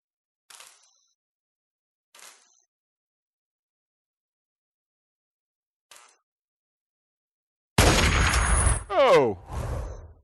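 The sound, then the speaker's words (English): Sniper rifle firing in a first-person shooter video game: three faint, sharp clicks spaced apart, then a sudden loud blast with a ringing metallic tail, followed by further heavy bursts of noise. “Let's go sniper rifle on him. He's completely clueless, so we have a chance to do a little free fire sniping.”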